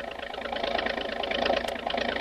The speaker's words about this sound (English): starts up with a roar, and the speedy motorboat hurls through the water into the midst of the war canoes.